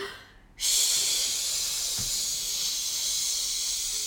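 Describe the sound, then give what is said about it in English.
A long, continuous shush made by a person to calm a crying baby: a steady, loud, hissing breath sound that begins after a brief quiet moment and holds evenly until the end. “One is to take a deep breath and hold a very long shush like this.”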